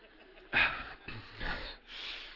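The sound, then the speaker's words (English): Faint, soft breaths as a speaker pauses mid-talk: a few airy inhales and exhales, unhurried and quiet, with no words spoken. “I'm just going to stop and breathe for a second.”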